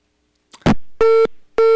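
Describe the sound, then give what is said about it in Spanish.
A telephone busy tone follows a dropped phone call: a short crackling burst, then two steady mid-pitched beeps in an even on-off rhythm, loud and clean with no talk. “no puede haber señal más clara de que se cayó la llamada telefónica”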